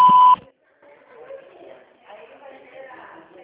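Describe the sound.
A short, steady electronic voicemail beep sounds loud at the very start, then cuts to a brief silence before speech follows.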